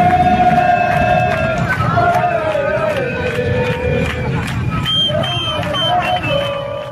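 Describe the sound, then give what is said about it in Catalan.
Crowd noise at FC Barcelona's street parade through the city: a steady murmur of many voices with long, sustained horn-like tones sounding over it, loud at first and then holding at a moderate level. “És la rua del Barça, que ahir passava pels carrers de la ciutat”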